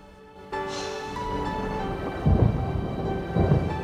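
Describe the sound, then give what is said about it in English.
Thunder rumbles over a bridge above water during a gloomy outdoor film scene. Two low, rolling rumbles swell over a steady wash of rain and a sustained background tone. “He flinches at the thunder”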